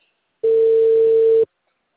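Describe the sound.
A steady telephone tone sounds while a call is being placed. It is one clean, even hum lasting about a second, with nothing else around it.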